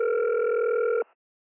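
A telephone ringback tone sounds as a woman calls her mobile phone provider about a billing complaint. It is a single steady, buzzing tone lasting about a second, then it cuts off into silence.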